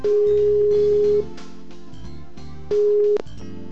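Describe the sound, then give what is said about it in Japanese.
Ringback tone while placing a phone call: a steady mid-pitched electronic tone sounds in two bursts separated by a pause, over soft melodic backing notes. “懲りませんよ、もう一回発信しちゃう。”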